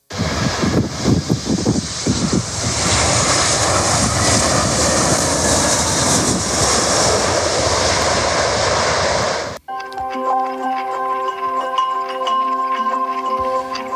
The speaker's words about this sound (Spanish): Tras pasar varias horas en Reykjavik, este mediodía cogíamos por fin el avión y aquí estamos.